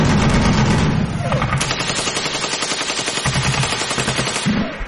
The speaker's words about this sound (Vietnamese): Bên chúng có một khẩu trung liên, khạc đạn điếc luôn cả lỗ tai.